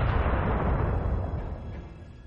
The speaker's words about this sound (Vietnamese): Nhưng đúng lúc này, thương khung truyền tới một tiếng nổ lớn.